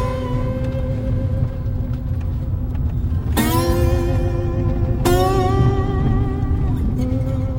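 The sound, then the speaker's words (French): A car drives along on a stretch where it could run in autonomous mode, with a steady low road and engine rumble and a droning hum, broken by two abrupt shifts in the sound. “Donc, cette fois-ci, là, la voiture, donc, elle pourrait rouler en autonome.”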